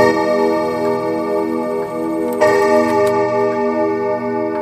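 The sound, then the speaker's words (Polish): Many clocks tick together in a clockmaker's workshop, their steady overlapping ticks forming a continuous rhythmic clatter layered over a sustained ringing hum. The ticks stay loud and even with no voices. “czy jak panu tak ciągle chodzą zegary, to się przyzwyczaja człowiek, czy już powoli wariuje?”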